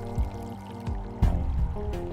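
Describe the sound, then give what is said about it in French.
Water pours and trickles out through small slits cut in a bag holding a body recovered from water, a steady gurgling flow with a few louder splashing surges. “Ensuite, on perce des petites fentes dans le sac afin que l'eau s'écoule, car l'eau, c'est extrêmement lourd”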